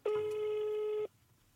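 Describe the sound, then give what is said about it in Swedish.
Ringback tone of an outgoing telephone call: a single steady, mid-pitched tone lasting about a second, then fading to faint background hiss. “Så vi verkligen. passar på att ringa.”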